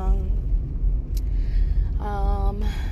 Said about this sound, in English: I'm currently driving right now. It's about 7 a.m. I'm just leaving a client's house.